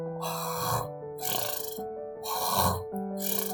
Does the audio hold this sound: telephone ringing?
no